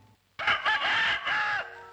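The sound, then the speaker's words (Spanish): A fighting cock crows once, a loud, strained cock-a-doodle-doo lasting a little over a second and broken into a few segments, with quiet before and after. “Nunca había visto tan de cerca a un gallo de pelea.”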